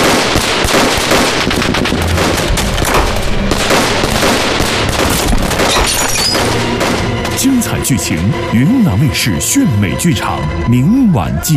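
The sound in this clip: Machine-gun fire and gunshots from a war drama battle scene: loud, dense, rapid bursts crackle continuously, with other sounds joining over the later part of the volley.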